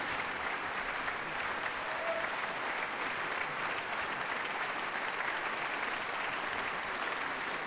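Concert audience applauding in the Philharmonie's large, well-filled auditorium: a steady, dense and unbroken patter of many hands, moderately faint and even throughout.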